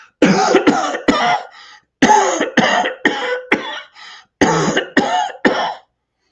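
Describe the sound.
A person's voice imitates a dry, wheezy cough with many short, raspy bursts in three quick runs separated by brief gaps. The hacks are loud and airy, with breathy tails, and there is no other talk.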